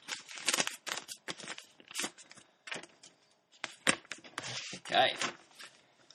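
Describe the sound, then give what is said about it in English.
An envelope is torn open: a string of crisp, crackling paper rips and rustles comes in uneven bursts, some sharp and loud, others softer. “Okay, I'll open the envelope.”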